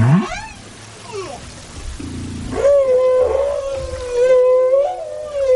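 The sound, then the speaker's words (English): Whales sing at their breeding grounds, trading melodies: quick rising whoops at the start, then long, loud, wavering tonal moans that hold a steady pitch. “this meetup provides the whales with the opportunity to have vocal jam sessions where they trade melodies”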